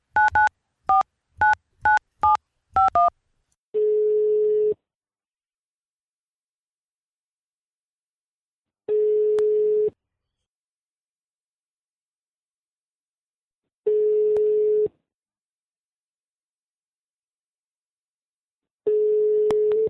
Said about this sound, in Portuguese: vou ligar pra ele de novo.